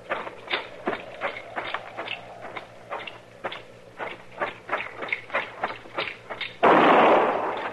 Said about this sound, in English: That shot was in the shack.